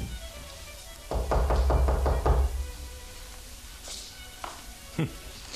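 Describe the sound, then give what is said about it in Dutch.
Knocking on an apartment door at flat number 3, a quick, evenly spaced run of several firm raps close together, followed by quiet. “Zei de reiziger toen hij op de maan verlicht de deur klopte.”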